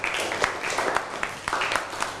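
Students applauding a classmate in a class, a short burst of ragged clapping from many hands, moderately loud and steady throughout.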